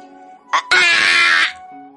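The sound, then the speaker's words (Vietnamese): An agonized scream: a loud, harsh, sustained cry of under a second, just after a short sharp burst, set over soft, steady background tones. “Đang lúc Lăng Phong trầm ngâm, có tiếng hét thảm vang lên, sau đó là vài bóng người xuất hiện.”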